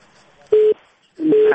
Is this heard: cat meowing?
no